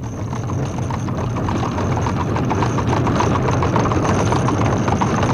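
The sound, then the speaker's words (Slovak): Clip-clopping hooves of a horse pulling an arriving cab, a steady rhythmic beat of many hoof strikes over a continuous low rumble, fairly loud and without voices. “Slečna Moustenová práve prišla drožkou.”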